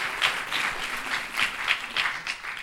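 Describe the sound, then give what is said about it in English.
Audience applause at a New York Historical Society morning event: a crowd claps steadily at moderate volume with slight swells throughout and no speech over it. “Let's give them a hand, too.”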